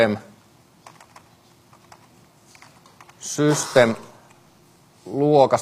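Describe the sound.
Fingers tap out a light, irregular patter of clicks on a computer keyboard, and a person speaks over the end of it.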